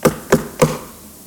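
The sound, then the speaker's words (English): Knocking on a house door: three sharp, evenly spaced raps in quick succession, clear and fairly loud, followed by quiet. “there's this beautiful picture of Jesus standing outside of a door of a house knocking”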